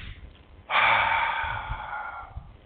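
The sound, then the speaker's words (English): One long, deep breath, a loud airy rush of air that starts suddenly and holds steady for about a second and a half before cutting off. It stands alone, with no talk around it. “I want everybody to take a deep breath.”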